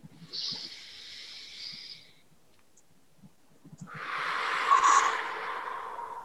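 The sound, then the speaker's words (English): A deep breath during a guided relaxation exercise: a soft, hissing inhale of about two seconds, a short quiet pause, then a longer, louder, breathy exhale that fades slightly toward the end. “And take a deep breath.”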